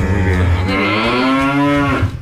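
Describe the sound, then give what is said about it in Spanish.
A cow moos once, a loud, sustained low call lasting about two seconds at a fairly steady pitch before tapering off. “¿Qué dijo la vaca?”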